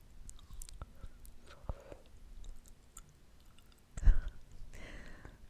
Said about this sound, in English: I'm gonna try to smack. Because, you know, ASMR smacks. Mm-hmm. They smack. Ready?